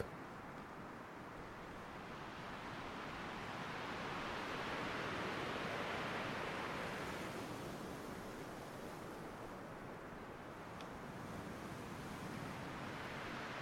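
Sea waves wash onto a beach in a continuous, broad roar of surf, swelling to a fuller rush midway before easing back, with a soft breath of wind throughout.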